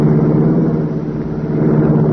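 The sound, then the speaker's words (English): A race car engine rumbles with a deep, steady drone. The low roar holds at an even level for the whole stretch, without pauses or clear changes in pitch. “The race car roared into life.”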